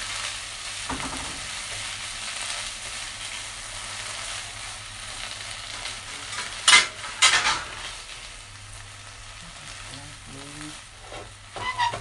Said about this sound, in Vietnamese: Tại vì canh được rồi rồi chị xào rau xong rồi